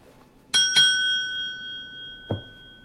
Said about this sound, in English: rings a shiny bell on a motel reception desk.